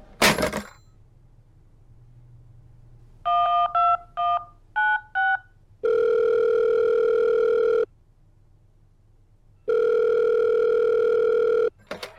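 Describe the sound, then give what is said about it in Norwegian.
An outgoing call's ringing tone on a telephone, after a quick run of dialing beeps: two long, steady, buzzing tones, each about two seconds long, separated by a pause and framed by faint handset clicks. “Jeg må nesten ringe videre.”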